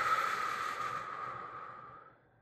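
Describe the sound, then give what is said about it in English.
Long breath out from a deep breathing exercise meant to bring on relaxation: a soft, airy rush of air with a faint hiss that slowly fades to near silence over about two seconds. “And now what I'm going to do is I'm going to take 3 deep breaths. And this is my way of putting myself into relaxing mode. So big deep breath in. And out.”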